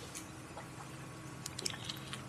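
A gulp of whiskey swallowed, heard as faint wet mouth and throat sounds with a few small clicks toward the end, quiet and without talk.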